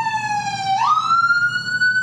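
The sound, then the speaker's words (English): A siren from a fire engine near a fire department wails loudly and continuously, holding a steady tone, dipping slightly, then sweeping upward partway through and staying at the higher pitch, with no talking. “Holy sirens. Yep. We live right by a fire department.”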